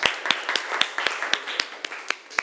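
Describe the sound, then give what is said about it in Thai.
Students in a classroom clap for a group's representative: many sharp, evenly spaced claps in a steady rhythm, moderately loud. “ปรบมือให้ตัวแทนจากกลุ่มที่หนึ่งหน่อยค่ะ”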